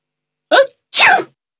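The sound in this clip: A single loud sneeze, heard alone: a short sharp in-breath followed by a harsher, slightly longer explosive burst.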